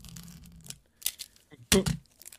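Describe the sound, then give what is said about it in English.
Packaging is cut open with a few short, sharp ripping and tearing bursts separated by brief silences. The last burst is the loudest and crispest. “Oh, that was a clean cut, man.”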